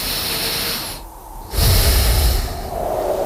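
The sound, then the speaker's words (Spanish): A person taking a deep breath, a single loud airy inhalation rising after a brief lull and lasting under a second, over a steady hissing background. “voy a respirar para coger fuerzas para mañana, que todavía queda un día más de la semana.”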